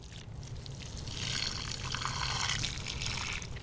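Tap water runs into a watering can at a kitchen sink, a continuous hissing rush that stays fairly even and moderately loud throughout, with no talk.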